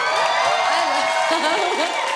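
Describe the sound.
Audience cheering and whooping as a singer is welcomed onto a stage at a live talk event: a dense, steady roar of many voices with higher shouts rising out of it, unbroken throughout.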